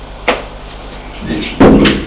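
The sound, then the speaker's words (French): Knocking on a door and entering: a couple of short, sharp impacts with a brief stretch of rustling between them, clear and fairly loud, no voices. “Elle frappe et entre.”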